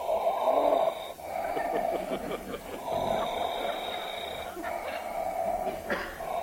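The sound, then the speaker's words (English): Deep, slow breathing from a man told to take it easy and breathe slowly: steady, raspy and wheezy breaths with snorting, snore-like texture, continuous and fairly loud throughout. “Just breathe easy. And he say, no, take it very easy, Mr. Gardner. No, slow, Mr. Gardner, if you don't mind. Just deep, slow breaths.”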